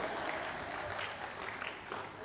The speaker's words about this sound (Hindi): ताली क्यों बजाई?